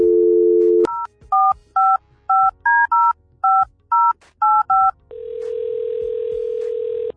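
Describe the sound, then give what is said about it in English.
A touch-tone telephone dials a number: a steady dial tone cuts off, then ten short keypad beeps sound in an uneven rhythm, and a long, steady line tone follows. “And you have the honors of doing the dialing,”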